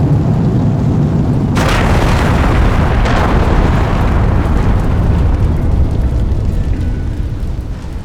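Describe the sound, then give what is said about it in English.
A remotely detonated bomb explodes on a ship: a loud, continuous roaring blast with a sudden sharp burst that swells the roar, which then rumbles on before easing slightly at the end. “Your friend put the bomb on Combeck's ship. If he hadn't tried to kill us, he would have survived.”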